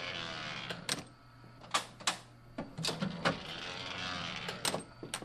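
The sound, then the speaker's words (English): Enormous mid-century letterpress printing presses run with many loud mechanical clacks and thumps in an uneven rhythm over a low continuous machine rumble. “He operates enormous mid-century machines that speak a mechanical language from a time gone by.”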